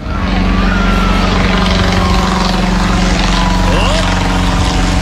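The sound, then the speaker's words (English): Steady, loud propeller-engine drone of a Wright B Flyer aircraft flying overhead over the Miami Valley, a continuous broad roar with a low hum throughout; a voice briefly exclaims. “That's the sound of the Wright B Flyer flying over the Miami Valley.”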